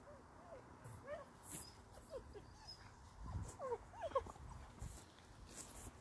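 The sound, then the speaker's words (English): Dogs whimper and yip faintly, with scattered short, high squeaks and whines over a low, rumbling background. “sorry about that. Some random dogs just came up to me.”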